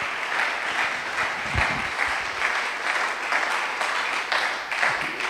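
Applause from a church audience celebrating a doctor: continuous, dense hand clapping with occasional low thumps, sustained at a fairly even loudness for over five seconds.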